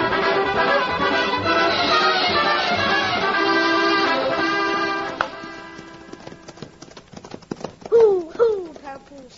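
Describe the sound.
Horses ridden at a steady pace give off rhythmic clip-clopping hoofbeats that come through as background music fades out, the hooves continuing in an uneven run of sharp knocks to the end.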